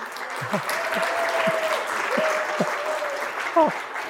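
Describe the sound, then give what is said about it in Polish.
Sustained audience applause holds at an even level throughout, with a voice briefly audible over the clapping. “A tu już mogę zejść, bo już było najważniejsze, już było brawko.”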